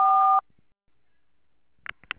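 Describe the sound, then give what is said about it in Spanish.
A voicemail beep tone sounds as one loud, steady electronic beep lasting under half a second. Silence follows, then a few faint clicks and bumps near the end. “deje su mensaje después de la señal.”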